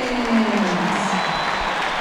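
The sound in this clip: A stadium crowd gives a player an ovation, a steady, dense wash of clapping and crowd roar with voices faintly audible within it.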